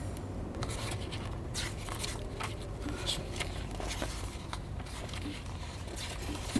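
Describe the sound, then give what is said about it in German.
Pages of a magazine or booklet being leafed through, with many soft papery flicks and rustles in a continuous, uneven rhythm. “Ich blätter vielleicht kurz einmal durch.”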